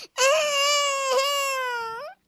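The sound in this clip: A baby fussing in a high chair lets out one long, loud wailing cry lasting about two seconds, held at a high, steady pitch that sags slightly before cutting off.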